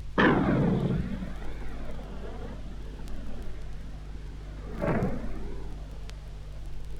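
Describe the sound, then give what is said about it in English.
A 105mm tank gun on an M60 main battle tank fires with a loud, heavy blast that rolls into a long, low rumbling decay. A second, weaker boom surges through the lingering rumble before fading out. “The 105mm tank gun fired from an M60 main battle tank.”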